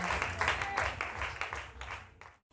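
Congregation applause acclaiming the Lord Jesus during a church healing ministry service: dense, steady clapping that thins toward the end and then stops abruptly into silence.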